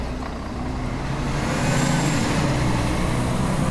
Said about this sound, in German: Nach ein paar Stunden Ruhe in Matalas Cañas fahren Einheimische und Besucher mit dem Shuttlebus nach El Rocío.